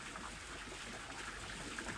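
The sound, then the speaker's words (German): Water splashes and trickles in a soft, continuous murmur, a gentle, steady flow with faint irregular droplet sounds and no voices. “lausch auch auf das Plätschern des Wassers.”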